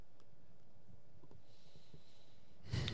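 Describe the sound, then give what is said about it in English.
A speaker's deep breath before talking: near silence, then one short, loud breathy rush at the very end. “The deep breaths, extended pauses. We're gonna leave that in there.”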